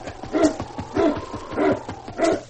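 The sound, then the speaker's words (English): Barking from a sled dog team: about four loud, sharp barks in an even rhythm, each a short burst with no voices. “Oh, he's leading me. Say, that's a dog team.”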